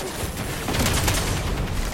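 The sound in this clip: Sidearm gunfire in the video game Destiny 2: a rapid, continuous run of loud shots with a heavy low-end punch, with no speech over it.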